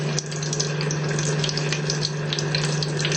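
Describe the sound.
A spooned mixture frying in hot oil gives off a loud, steady sizzle and crackle, a dense hiss that runs unbroken with a low hum beneath it.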